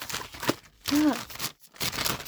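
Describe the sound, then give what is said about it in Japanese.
Crinkly plastic rustling as a plastic bag holding a telephone-handset item is cut open with scissors, in a few short bursts separated by a brief voiced groan and a moment of quiet. “なんかもう袋に入ってるから、開けちゃいますね。ハサミで切ります。”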